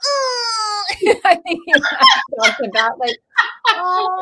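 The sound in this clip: A woman's voice imitates a whiny four-year-old child. A high, drawn-out whine comes first, then a run of choppy, sob-like whimpering syllables that end in another nasal whine.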